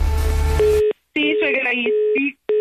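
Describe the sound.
Electronic telephone tones as a call is dialed on a phone: a few steady, clear beeps, held and broken by short silent gaps, after a stretch of low rumbling noise.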